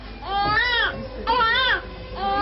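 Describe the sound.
A newborn baby only a few hours old cries in high-pitched, wavering wails: two full cries with a short pause between them, then the start of a third.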